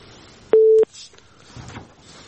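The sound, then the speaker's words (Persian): A single steady beep sounds on a phone line after a caller's connection to a radio show drops. It lasts about a third of a second and is followed by faint line noise. “فکر کنم که تماسشان قطع شد.”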